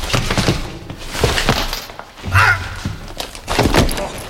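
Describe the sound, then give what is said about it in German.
A punch to the chin during a staged hold-up fight, heard as a few dull thuds and thumps, with a heavier impact partway through. “das nenne ich einen saftigen Kinnhaken”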